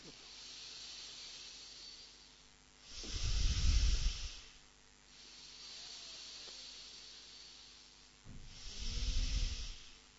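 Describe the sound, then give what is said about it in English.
Slow breathing in and out during a relaxation exercise. Two loud, breathy inhale-exhale swells rise and fall, with softer steady airflow between them. “When you breathe in, you can roll your shoulders up. When you breathe out, you let them sink.”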